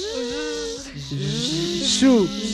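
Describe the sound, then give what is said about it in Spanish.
Several voices imitate a buzzing bee, making a sustained, overlapping voiced buzz whose pitch wavers and shifts, with one voice swelling louder near the end. “Hagamos todos como una abeja.”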